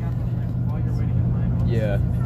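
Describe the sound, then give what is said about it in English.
Inside a moving bus headed to Florida on a band trip, a steady low engine rumble drones on, with brief voices rising over it near the end. “And we are currently on the bus headed to Florida for our band trip. Yes sir. Yeah, we got a hefty bus ride ahead of us”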